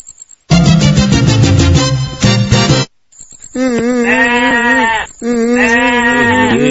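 Goats bleating: a few loud, drawn-out, wavering bleats with a nasal, buzzy tone. No one speaks.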